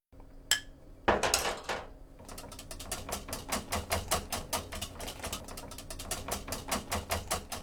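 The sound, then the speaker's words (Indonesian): Metal whisk beating a honey mixture into beaten eggs, opening with a couple of sharper knocks against the bowl, then settling into a steady, rapid run of bright clinking strokes at an even rhythm, with no voices. “masukkan campuran itu ke dalam kocokan telur dan aduk rata menggunakan alat pengocok.”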